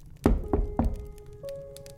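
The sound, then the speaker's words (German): Rhythmic knocking: three evenly spaced, hollow, thudding knocks, loud and clear on their own, followed by a steady sustained tone. “Aber dann wird das Klopfen rhythmischer und eindringlicher.”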